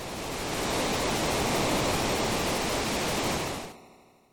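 Steady, loud roar of a waterfall, a dense rushing wash of water that holds constant for several seconds and then cuts off abruptly into a short fading tail.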